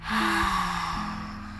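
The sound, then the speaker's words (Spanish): Breath pushed out through the mouth during a guided breathing exercise, a steady airy rush lasting under two seconds, loud at first and slowly fading. “Retén. Exhala por la boca.”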